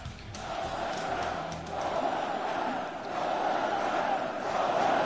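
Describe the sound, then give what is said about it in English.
A large crowd of thousands of Polish people chants Donald Trump's name in welcome during his visit to Poland, a loud, massed roar of voices swelling and ebbing in repeated waves. “Earlier today, thousands of Polish people turned out to welcome the president.”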